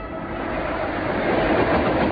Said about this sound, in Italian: Il treno locale Trapani-Palermo sta attraversando la località Feudo, pochi chilometri da Cinisi.